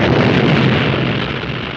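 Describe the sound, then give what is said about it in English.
A huge explosion in a movie fills the whole stretch with a loud, dense roar that stays heavy throughout and eases only slightly toward the end. “Huge explosion.”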